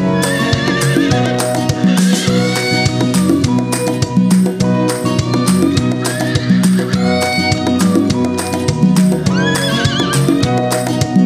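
A horse neighs and whinnies loudly and repeatedly, shrill wavering calls over a steady rhythmic clip-clop of hooves.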